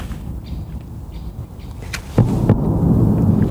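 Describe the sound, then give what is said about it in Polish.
Mining explosives detonate on a test range near a factory: a sharp crack bursts out of a low background hum, then a heavy low rumble lingers to the end. “To na placu prób bada się kolejne środki wybuchowe. Górnicze w pobliskiej fabryce.”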